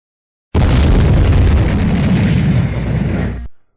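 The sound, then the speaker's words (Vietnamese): Explosions rumbling inside a sealed secret chamber whose walls shake: a loud, continuous deep roar that bursts in abruptly, churns steadily for about three seconds, then fades out quickly, heard alone. “Bên trong mật thất, tiếng nổ ầm vang không ngừng, bốn vách tường xung quanh cũng kịch liệt chấn động.”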